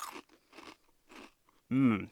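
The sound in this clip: Crunching of Hulk-colored Chex cereal eaten plain and dry: three crisp chewing crunches in quick succession, followed by a brief voiced murmur.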